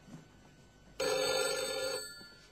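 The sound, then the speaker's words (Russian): A telephone bell rings once in a loud, steady metallic burst of about a second, then cuts off and leaves a faint tail in otherwise quiet surroundings. “к телефону. Где ты там ходишь? Весь телефон пооборвали.”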